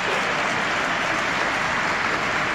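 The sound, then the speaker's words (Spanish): Students applauding on a stage at a school welcoming ceremony: a dense, steady wash of clapping with no gaps or talk throughout. “Y en el escenario le esperan estudiantes que ya le aplauden, ustedes lo pueden oír.”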